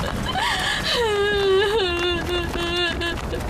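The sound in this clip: A person cries and whimpers in a loud, wavering wail. The pitch bends up and down, then settles into a drawn-out, lower moan lasting a few seconds.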